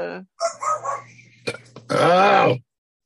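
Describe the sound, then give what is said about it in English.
A dog gives a long, groaning, moan-like bark that arches up and then down in pitch, after a few shorter vocal sounds. “stupid dog. He's trying to put in his two cents worth.”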